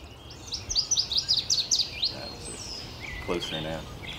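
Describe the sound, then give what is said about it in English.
A northern waterthrush, a warbler, singing from bushes: a rapid run of loud, bright, high chirps in quick succession that step down in pitch, followed by quieter calls afterward. “I'm hearing a northern water thrush singing in the bushes right there. That loud chirping sound, descending in pitch.”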